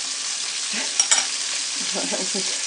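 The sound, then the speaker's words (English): Sausages fry in a pan, already blackened on one side, with a steady hiss of sizzling fat broken by a couple of sharp crackles midway and some faint stirring later. “Oh, look, this sausage is black on that side now. You're going to end up with burnt offerings.”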